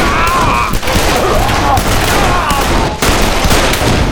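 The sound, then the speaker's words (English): Gunfire from four men shooting rifles from above crackles in a loud, dense, continuous barrage of overlapping shots, with only a couple of very brief dips in intensity. “Smoke, Pearlie, and Cal spun around even as the four men above them began shooting.”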